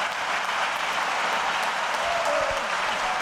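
An audience applauds as the tenor Ramón Vargas walks on stage at a concert with the National Symphony Orchestra, following the Don Giovanni overture. The dense, even clapping holds steady throughout with no voices over it.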